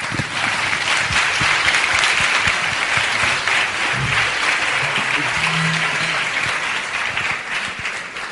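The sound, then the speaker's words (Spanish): An audience gives loud, steady applause to welcome a speaker before a talk. Dense clapping holds evenly for about eight seconds and thins slightly near the end. “Un fuerte aplauso.”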